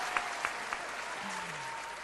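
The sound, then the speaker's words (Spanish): Audience applause following a zamba performance, with three sharper individual claps standing out early over a dense, sustained patter of clapping. “Tenés aplausos en la radio, no te imaginás.”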